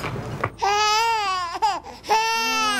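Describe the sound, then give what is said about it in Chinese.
A child crying in a few loud, wavering wails: a long high-pitched cry, a brief catch, then another sustained sob, all clear and without talk. “这孩子怎么这么能哭啊？”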